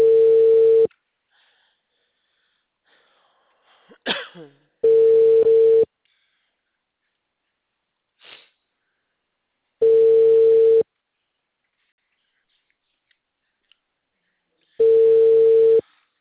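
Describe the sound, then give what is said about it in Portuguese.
Ringback tone heard while placing a phone call: four steady, evenly spaced tones, each about a second long, separated by long silences, with a couple of faint noises in the gaps. “Eu tô numa ligação aqui, já vou entrar. Eu tô tentando ligar pra Daniela.”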